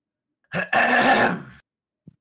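A man clears his throat in one rough, gravelly burst that lasts about a second, loud and alone, followed by a brief faint sound.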